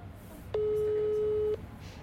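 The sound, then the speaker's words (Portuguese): A single ringback tone sounds while a phone call is placed to someone in Curitiba. It is one steady, even-pitched tone lasting about a second and stands out clearly above faint background hiss. “durante a entrevista, a gente ligou para a Júlia, que ainda mora em Curitiba”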